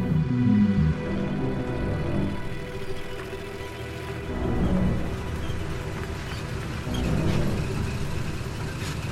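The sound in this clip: A car is driven along a road, producing a steady low rumble of engine and tyres that swells gently a few times and never drops out.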